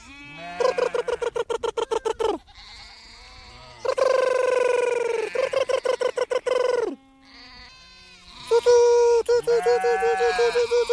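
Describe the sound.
A Mongolian nomad's special call for a lost herd animal: loud, trilled, rapidly pulsing voiced cries in several bursts, alternating with long steady held tones, with short pauses between phrases.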